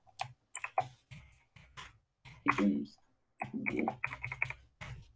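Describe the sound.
Typing on a computer keyboard while writing a chat message, irregular bursts of quick, light clicks separated by short pauses.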